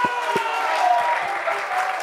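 A church audience claps during a worship service, a dense, steady wash of applause that holds at an even loudness for the whole stretch.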